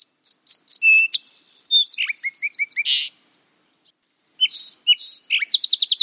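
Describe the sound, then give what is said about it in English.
A song sparrow sings two bursts of song, each a quick run of high, bright chirps, trills and buzzy notes, separated by a short silence, with no other sound. “Bird one is a song sparrow.”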